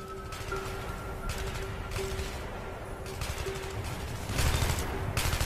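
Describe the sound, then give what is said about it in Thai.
Heavy exchange of gunfire as soldiers defend a base line: dense, overlapping bursts of shots, fairly faint, growing louder near the end. “เสียงปืนต่อปืนปะทะกันอย่างหนักหน่วง”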